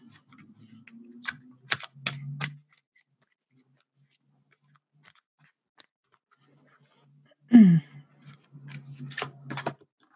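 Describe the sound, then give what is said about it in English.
Cards from an oracle-style deck are shuffled and drawn, giving two short bursts of crisp, papery clicks and snaps, one early and one near the end. A brief falling vocal sound comes between them over a low steady hum. “All right, let's have a look at a card today. What are we going to get this time?”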